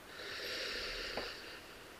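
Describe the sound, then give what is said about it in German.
A slow, deep breath drawn in through the nose during a beginner's meditation: a soft, steady airy hiss lasting about a second and a half, heard alone. “Und jetzt nehmen wir noch fünf tiefe Atemzüge. Du atmest noch einmal tief durch die Nase ein”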